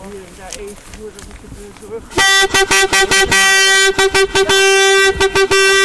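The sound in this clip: A horn being tooted in a quick series of many loud, short, buzzing blasts, each on the same steady pitch. People talk just before the tooting starts.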